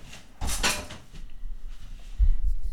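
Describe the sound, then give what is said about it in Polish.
A window being closed: a brief, bright sliding scrape comes first, and a low, dull thump follows a moment later against faint background noise. “Może najpierw zamknę okno, a później jeszcze coś Państwu zademonstruję.”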